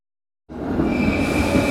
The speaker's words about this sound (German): Achtung, Bahnsteig 9. Eurocity 567, Land Tirol, nach Bregenz, über Salzburg, Kufstein und Innsbruck fährt ein.